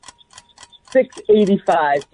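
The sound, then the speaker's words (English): A quiz game's countdown timer ticks in rapid, faint, evenly spaced clicks, then a voice begins speaking. “Here's your timer.”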